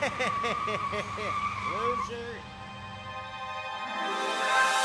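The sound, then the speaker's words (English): A car drives away with its tires skidding and squealing, a loud continuous rush of tire and engine noise that swells toward the end, with a voice heard over the first half. “So long, sucker. Don't you drive away. Don't you drive away. Get back here right now.”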